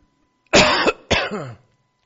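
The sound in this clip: Two harsh coughs from a tickle in the throat come close together with a brief gap. They are loud and rough, and nothing else is heard.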